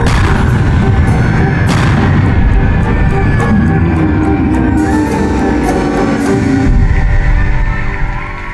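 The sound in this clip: Gunfire and artillery barrage from an audio drama, a dense, loud, continuous roar of booms and blasts that runs for about eight seconds without a break.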